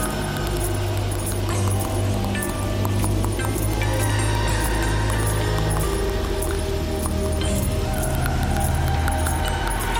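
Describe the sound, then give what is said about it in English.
Continuous jangling of long keys and chains carried by a walking woman, a dense, steady stream of metallic clinks and rattles over a low rumble, without pause. “she was known as Brittle Teeth, the long keys, known by the sound of the chains that jangled, and her chattering dentures as she walked the grounds”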